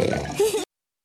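A pig-like grunt: one short, low, rough oink lasting about half a second that cuts off abruptly into silence.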